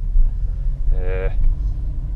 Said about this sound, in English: I am driving to Dunkin' Donuts on the way to the skate session.